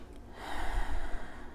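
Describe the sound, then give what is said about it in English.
A big, breathy intake of air during a breathing exercise, a steady rushing hiss that swells and then eases off over about a second. “Let's start with that big breath in.”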